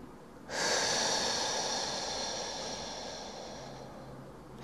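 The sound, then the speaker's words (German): A slow breath flows out through the mouth during a calming breathing exercise, a long, steady, airy hiss that starts abruptly and fades gently over about four seconds. “Durch die Nase ein. Und lässt den Atem durch den Mund hinausfließen. Wieder ein.”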